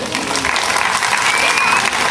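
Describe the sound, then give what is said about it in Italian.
Loud, dense applause from a crowd, a steady wash of clapping that continues for the full two seconds. “Un applauso.”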